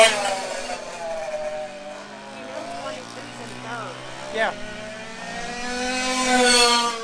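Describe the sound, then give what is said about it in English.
Race car engine droning on a racing track, its steady, buzzing harmonics swelling louder near the end while a man speaks over it. “There you go. That's the sound of the leader, Ralph Spill.”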